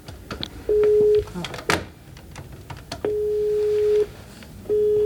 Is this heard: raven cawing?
no